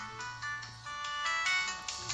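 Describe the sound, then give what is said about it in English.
A phone's electronic ringtone plays as a melodic pattern of bright, repeating tones at moderate loudness, with no talking over it. “Phone's ringing, dude.”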